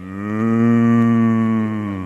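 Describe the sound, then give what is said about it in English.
A cow mooing in one long, steady, loud, low call that holds for about two seconds with a rich buzzing tone and fades slightly at the end. “100 million moo cows can't be wrong. What's good for Bossy?”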